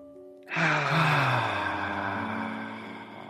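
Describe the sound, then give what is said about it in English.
One large, deep inhalation during a guided breathing exercise: after a short quiet moment, a loud, airy breath swells in and then eases off gradually over about three seconds, with no talk over it. “This 5th breath is twice as large.”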